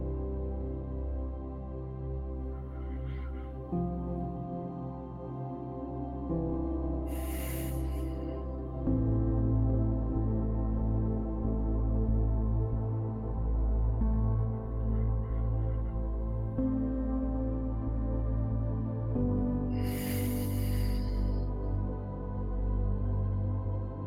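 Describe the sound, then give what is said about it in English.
Slow, deep breathing in and out during a guided breathing exercise, two long, airy breaths spaced well apart over a soft, sustained musical drone. “And on the exhale is the release of everything not here right now. Let's breathe.”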